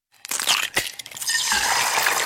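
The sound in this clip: Eggshells being crushed, with a few brittle cracks that build into a dense, continuous crackling crunch, fairly loud and with no voices.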